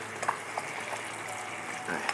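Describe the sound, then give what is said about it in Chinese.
Food sizzles as it fries, a steady bright crackling hiss throughout with a few brief clicks and taps rising above it. “滋滋作响啊！”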